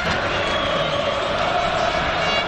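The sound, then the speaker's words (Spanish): Paraguayan football fans in a stadium in Colombia create a steady, dense crowd roar of cheering voices that holds at an even, loud level throughout. “Repasamos los goles. Escuchá, este es el público paraguayo.”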